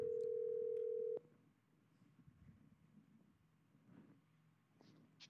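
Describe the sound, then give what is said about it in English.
A call is placed on a telephone: one steady mid-pitched line tone sounds for about a second and cuts off abruptly, leaving faint low background noise. “Let me dial his number. See if he'll answer.”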